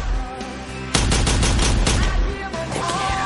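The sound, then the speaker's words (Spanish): Gunfire in an action film scene where a man lying on the floor is shot in the head with a pistol. A sudden loud burst of rapid shots begins about a second in, and a dense, steady crackling continues to the end. “Dispara al Wade del suelo.”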